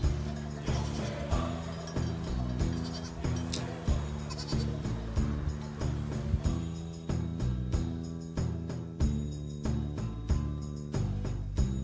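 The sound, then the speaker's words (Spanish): A flock of livestock bleating on a transhumance route toward Miraflores de la Sierra, many overlapping calls rising and falling continuously throughout, with no single animal standing apart for long. “Y así el rebaño sigue su camino, destino Miraflores de la Sierra, donde mañana se va a vivir la fiesta de la transhumancia.”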